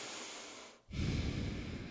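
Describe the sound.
Nasal breathing from someone recovering from a long illness: a steady airy breath, a short near-silent break, then a louder, rougher rush of air through the nose. No one speaks.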